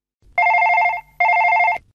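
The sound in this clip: Telephone ringback tone on an outgoing call: two long, loud trilling rings separated by a short gap, with nothing else heard.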